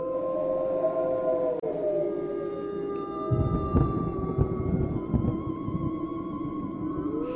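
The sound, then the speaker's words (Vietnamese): Wolves howl repeatedly in long, overlapping tonal cries that sustain and slowly sag in pitch. A low, rumbling noise rises beneath them in the second half, and no one speaks. “Chợt nghe những tiếng chó sói tru lên liên hồi.”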